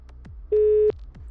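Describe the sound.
A telephone busy tone sounds during a call to a mobile number: one steady, mid-pitched electronic beep lasting under half a second, clear and loud over a faint, low background.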